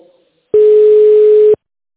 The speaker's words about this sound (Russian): Ваш вызов переводится.